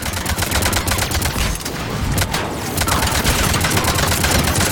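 Dense video-game gunfire from cover-piercing bullets roars in a continuous, rapid barrage, loud and unbroken throughout with a slight dip near the middle.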